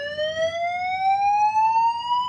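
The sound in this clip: An electronic alarm sounds as one loud, continuous tone that climbs steadily in pitch, with a faint low rumble underneath.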